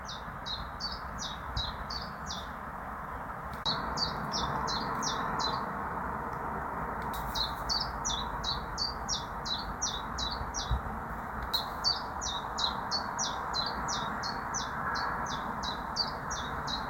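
A common chiffchaff, a tiny yellowish songbird, sings four bursts of quick, high repeated notes separated by short pauses. The song is fairly faint over a low, steady background rumble.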